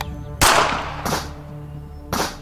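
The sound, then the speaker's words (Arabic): Three sharp rifle shots are fired through straw: a loud crack, a softer one about half a second later, then another strong report a second after that, each decaying quickly. “لم تخرج هاتان من مسدسي بل من بندقيته، لأن رصاصتي كالعادة لم تصيباه.”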